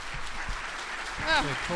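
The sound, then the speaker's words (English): A crowd applauding in a standing ovation, steady clapping from many hands that stays fairly faint while a voice speaks over it toward the end. “When she approaches the stage, the crowd gives a standing ovation.”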